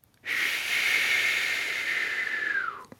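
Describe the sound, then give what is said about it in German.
A long, deep calming breath makes one continuous airy hiss lasting over two seconds. A faint whistling tone drops in pitch as it ends, with no talk. “Einmal tief einatmen, Luft anhalten und langsam wieder rauslassen.”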